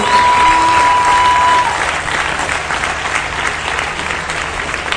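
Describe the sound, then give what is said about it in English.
Audience applause for the cooks at a large gathering: dense, steady clapping from many hands, loud at first and easing slightly partway through, continuing without a break. “And let's give a big round of applause for our cooks, for the 110,000.”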